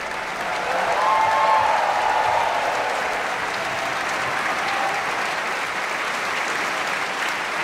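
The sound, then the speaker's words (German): An opera audience applauds and cheers at a curtain call with steady, dense clapping throughout. A brief tonal cheer or whistle rises early over the crowd noise. “und großer Jubel für Peter Hoar, den Herrn Brautschek.”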